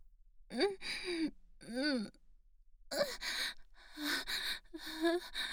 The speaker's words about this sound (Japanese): 脇の下に鼻息すぐ立てる 大きく深呼吸しなさい。吸って吐いて